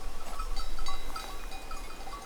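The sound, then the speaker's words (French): Soft, scattered bell tones ring from a flock of ewes in a small mountain pasture beneath a cliff near Roquefixade, sounding irregularly and faintly over a low, steady background. “Petit pâturage avec des brebis.”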